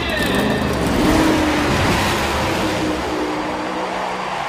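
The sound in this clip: Race car engines roar at Indianapolis Motor Speedway, a loud, dense, continuous mechanical drone with a slight swell early on, with a man talking excitedly over the noise.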